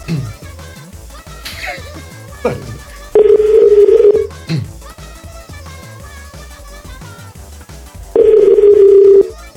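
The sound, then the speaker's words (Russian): Telephone tones from an outgoing call being dialed: two long, steady mid-pitched beeps separated by a gap, heard over ongoing talk and background sound. “давайте позвоним все-таки ей”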